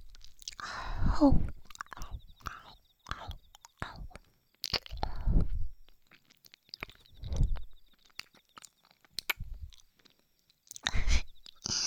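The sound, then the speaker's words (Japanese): Soft chewing and biting, with many quiet wet crunches and squishes in irregular bursts separated by near silence, and faint whispering in between. “お望み通り噛んでやる。”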